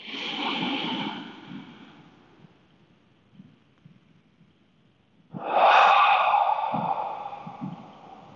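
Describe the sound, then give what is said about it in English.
Slow, deep breathing of a relaxation exercise, drawn down into the diaphragm: two long, airy breaths, each a steady rush of air, separated by a quiet pause with faint soft sounds. “Deep breaths to your diaphragm, letting your diaphragm stretch and expand.”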